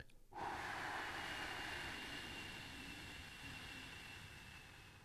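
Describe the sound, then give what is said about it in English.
A slow, steady exhale during a breathing exercise: a soft, continuous breathy hiss that holds at an even level for about five seconds, faint and with no talking. “So it should sound something like this. Hold for 1 or 2 seconds, and then exhale.”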